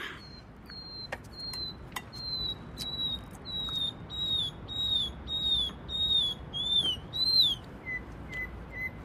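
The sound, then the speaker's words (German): A nightingale sings a run of high, pure whistled notes punctuated by sharp clicks. The phrases grow louder and more elaborate as the song goes on, then settle into a few softer, lower notes at the end. “Hör mal, was ist mit der Amsel los? Das ist doch keine Amsel. Was ist denn sonst? Na, eine Nachtigall.”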